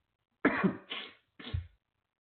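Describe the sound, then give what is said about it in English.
Coughing and throat clearing: three short, rough bursts in quick succession, fairly quiet and alone, with silence before and after. “Excuse me. I got a frog in my throat.”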